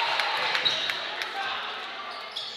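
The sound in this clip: Repeated thuds of a basketball being dribbled on a court during a high school boys' game between Exeter and Elizabethtown, several sharp bounces over steady crowd murmur with a voice talking.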